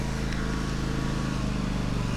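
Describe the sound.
A vehicle motor runs in a steady, unbroken drone with low rumbling and a dense hiss, holding an even level throughout.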